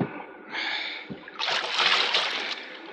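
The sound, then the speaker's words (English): A paddle splashing in water as a small boat is rowed across a bay, with soft swishing, sloshing strokes that swell and ease off in turn and no talk. “Quiet! Quiet! One more sound from that paddle and I will shoot.”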